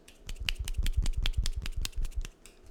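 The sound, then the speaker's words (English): A one-handed clapping trick produces a rapid run of sharp slapping clicks, many quick snaps in an uneven rhythm, crisp and fairly faint, with no voices. “That is the sound of one hand clapping, ladies and gentlemen.”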